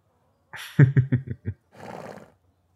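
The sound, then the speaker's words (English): A horse, a mare ridden as a steed, whinnies in a rapid run of pulsing, vibrating calls that ends in a breathy snort. The sound is loud and alone, with no voices. “Yeah, this is Jake's favorite steed. And we're lucky that he's generous enough to lend her to us.”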